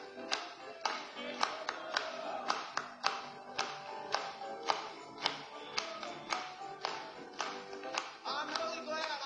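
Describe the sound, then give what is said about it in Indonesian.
Hand clapping keeps time with a worship song, with many sharp, evenly spaced claps about twice a second running steadily over the music throughout. “Kita akan bertepuk tangan bagi dia pagi ini.”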